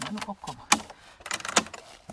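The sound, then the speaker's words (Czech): A large key works the lock of a small door in a windmill, giving a couple of sharp metallic clicks and rattles. A brief voice is heard at the start. “velkým klíčem otevíráme malé dveře”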